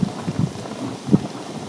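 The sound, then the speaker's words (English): Boiling, bubbling water in hot pools, steam and water percolating up from the ground. A continuous churning wash with low, irregular burbling pops, and a few louder glugs rising above the steady bubbling. “We had all these boiling, bubbling hot pools to ourselves. This is the sound of the boiling.”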